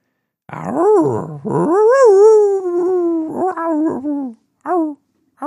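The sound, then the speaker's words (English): A man howls like a wolf: loud, drawn-out, wavering howls whose pitch rises and slides down. A long sustained howl is followed by shorter howling yips at the end, with no words spoken. “When I get 420s, I start to howl.”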